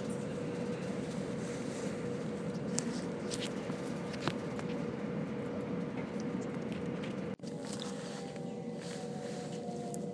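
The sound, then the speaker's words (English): Train running on a very straight railway line in Kent, heard from on board: a loud, steady rumble and rattle with faint clicks, and a brief dip in the noise partway through. “Still with no announcements, we're now arriving at Tunbridge. Tunbridge is on a very straight railway line”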